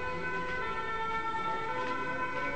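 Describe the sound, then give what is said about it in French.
An ambulance siren passing outside, heard as a faint, continuous layered wailing tone that holds steady throughout, with no clear voices over it. “C'est pas la police, c'est l'ambulance.”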